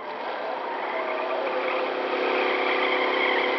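A fast-moving car, a roadster in a radio drama, drives at night through woods; its engine gives a steady, loud whirring drone that holds even without breaks, with no talk over it.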